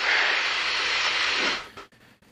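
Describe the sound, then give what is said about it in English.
An airplane rolls to a stop after a night practice landing, its loud steady rushing roar holding for about one and a half seconds before dropping away sharply into faint, quiet rumbles. “All right, that first one is a pretty good landing. It felt good. We came to a stop”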